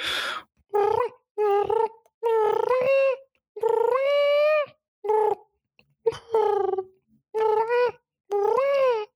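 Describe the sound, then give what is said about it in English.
A person's voice imitating a cat: a long series of loud, tonal meow-like calls with wavering pitch, separated by short silences. “That's my cat impersonation. Believe me, that is actually me. I know it sounds like a real life cat, but it's not. It's me.”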